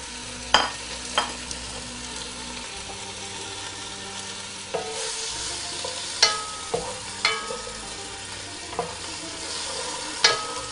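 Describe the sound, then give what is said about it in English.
Blanched intestine and meat fry and are stirred in a pan. A steady sizzle runs throughout, broken by several sharp scraping and clattering knocks of stirring. “I'm gonna go ahead and add the intestine, the previously blanched intestine, and the meat.”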